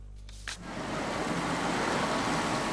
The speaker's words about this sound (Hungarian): Ez az utolsó körök egyike ennek a szovjet trolinak. A több mint 30 éves jármű már csak december 31-ig járja az utakat.